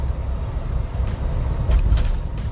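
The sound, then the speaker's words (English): A car drives along with a steady, heavy low rumble of road and engine noise that swells slightly now and then, with no talking. “sorry if you hear that I'm currently driving”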